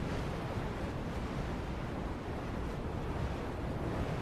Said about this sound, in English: but pretty large waves. It's gonna take you a little longer than 5 minutes to get to the eye of the storm.